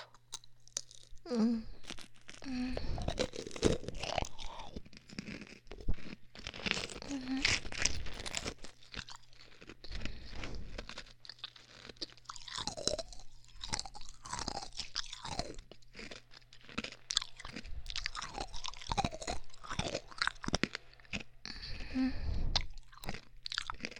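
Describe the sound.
Crunchy chewing of peach-flavored food: many irregular crisp bites and crunches, with soft pauses between bursts and no clear talk.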